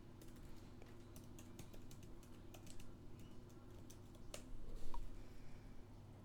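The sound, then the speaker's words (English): Typing on a computer keyboard: many quick, light key clicks in an uneven stream over a steady low hum, with a slightly louder flurry of keystrokes near the end. “Just listen to me type for a second.”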